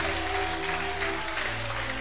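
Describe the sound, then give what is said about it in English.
An audience applauds at a religious healing gathering, making a steady, dense wash of clapping from many hands that stays even and somewhat muffled throughout, over a low hum. “Clap for Jesus.”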